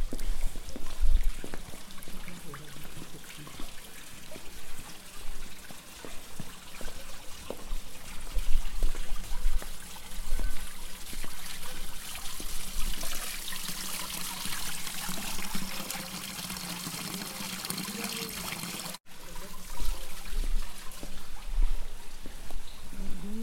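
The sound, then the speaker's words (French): A small trickle of water flows through a channel along a village's main street, a soft continuous bubbling wash with faint splashes and drips throughout, no voices standing out. “C'est juste un petit filet. Avant, c'était vraiment un gros cours d'eau qui passait au milieu. Pas juste un petit filet d'eau comme ça.”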